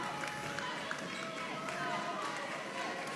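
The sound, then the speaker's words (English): A student section cheers at a college volleyball match. The crowd roar is dense and unbroken, with a commentator talking over it. “The Mac student section coming alive here at the Bob.”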